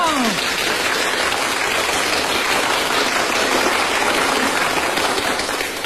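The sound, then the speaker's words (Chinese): Prolonged applause from a crowd, a dense, loud, steady wash of clapping that keeps an even level from start to finish without a break. “长时间鼓掌”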